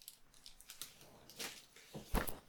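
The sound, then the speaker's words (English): Wrapping paper crinkles and tears as a gift is unwrapped: a few brief, faint rustling bursts, with the loudest tear near the end. “I'm gonna go ahead and unwrap your first gift”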